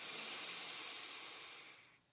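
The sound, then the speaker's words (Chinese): A long, deep inhalation during a guided breathing exercise before a hum: a steady, airy hiss that holds, then tapers away near the end. “为了一声嗡，吸气，深吸。”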